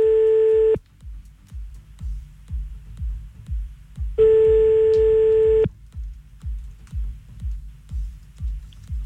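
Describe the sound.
A telephone busy tone sounds on the line after a call is hung up: two long, steady, mid-pitched tones separated by a gap of several seconds, over a regular low ticking pulse that runs throughout.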